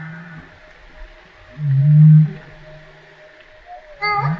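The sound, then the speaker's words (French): Humpback whale calls, heard alone: a faint low opening tone, then a loud, deep, sustained moan, and a short harmonic-rich call at the end. “Est-ce que ça, c'est une baleine à bosse qui répond, ça ?”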